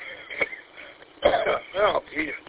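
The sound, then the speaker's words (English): A man on an amateur radio net coughs and clears his throat, with a few rough, gravelly bursts coming through the thin, band-limited radio audio. “coughing up a mung there. Excuse me”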